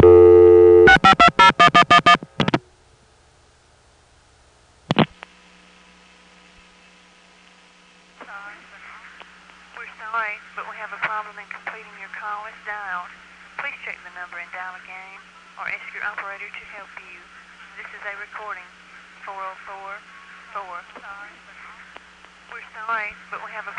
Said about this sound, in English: You'll notice that if I dial 6 plus 520, a vacant code, the call goes through anyway, and we can even see what tandem the Marietta Crossbar 5 is using.